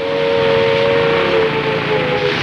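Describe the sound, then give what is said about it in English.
A car engine as a car drives up at an airbase: a steady droning hum carrying a sustained tone over broad, even noise, with no voices. “Now Vin drives up.”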